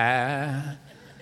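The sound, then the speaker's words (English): A voice imitates a lamb bleating, giving a single drawn-out, wavering "baa" that lasts under a second and then falls silent. “You can just be like a little lamb and go,”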